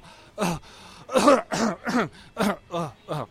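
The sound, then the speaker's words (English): A person demonstrates a lower airway cough, the scratchy chest cough of a respiratory infection, as a rapid series of about seven short, voiced, rough bursts separated by brief pauses. “So this is in your lungs, and it's kind of a scratchy urge to cough thing. And you're like,”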